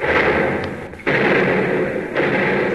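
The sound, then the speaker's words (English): Warship gun turrets one and two open fire on an enemy battleship: heavy booming blasts, a few sharp onsets each followed by a sustained rumbling roar. “Commence firing. Aye, aye, sir. Number one and two turrets, commence firing.”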